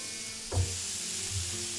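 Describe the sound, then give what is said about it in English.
Bacon rashers sizzle on an open panini press, a steady bright hiss throughout, broken by a soft low thud early on and a fainter one near the end. “I'm getting the bacon and I'm going to pop it into the panini.”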